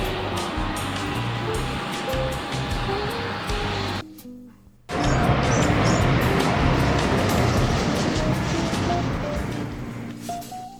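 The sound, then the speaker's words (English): An elevator makes a strange, loud mechanical rumbling and grinding noise. The dense, steady roar cuts out briefly for under a second, then resumes at full strength and slowly eases off toward the end. “It's weird that the elevator didn't make this sound before.”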